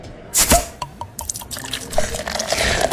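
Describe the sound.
Beer being poured: a sharp splash at the start, then scattered drips and clicks, giving way to a steady, fizzing liquid stream that grows fuller toward the end, with no voices.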